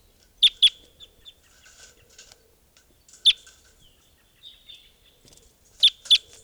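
A juvenile bird calls in sharp, high chirps that come mostly in quick pairs. Two loud ones, a single, then two more, with fainter chirps scattered between in otherwise quiet surroundings.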